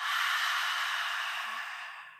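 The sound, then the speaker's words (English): A long breath out through the mouth during a guided breathing exercise: one continuous, soft airy hiss that fades gradually toward the end. “So we're going to start by opening the mouth and you're going to take an inhale. Exhale out the mouth.”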